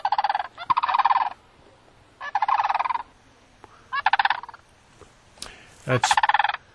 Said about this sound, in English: And we've got that sandhill sound up, so let's just for comparison purposes. Why not? Yeah, that's a good sandhill.